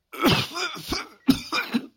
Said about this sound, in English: She was caught up in a fit of coughing and could not speak for some time.